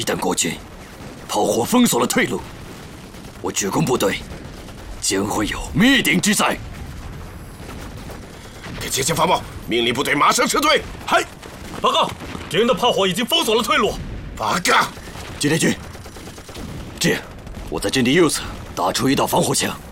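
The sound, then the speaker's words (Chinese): Artillery fire and gunfire in a radio drama tank battle. Repeated booms and bursts of shots run under urgent talk for the whole scene. “炮火掩护，敌人火力太强，又有两辆坦克被摧毁，请求炮火支援。”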